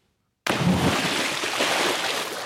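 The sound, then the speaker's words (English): Water in a swimming pool, picked up by underwater and overhead microphones, bursts in abruptly as a dense, continuous rush and slosh, staying steady and fairly loud. “They placed an underwater mic and an overhead mic outside the swimming pool. So here's what the underwater mic sounds like. Adding the overhead mic, it sounded a bit like this.”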